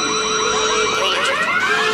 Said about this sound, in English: Alarm! Oh my God! Okay, it's happening.